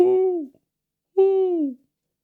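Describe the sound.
A live turtle's owl-like hooting: two drawn-out hoots, each about half a second, sliding downward in pitch with a short pause between them, clear and alone.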